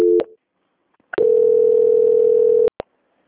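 Telephone line tones as a call is transferred: a short steady tone, a pause, then one long level tone of about a second and a half, cut off by a couple of sharp clicks. The tones are loud and no one speaks.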